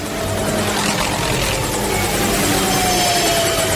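A video game helicopter drones loudly and steadily, its rotor giving a rapid chopping texture with a faint high whine on top, holding level throughout without voices.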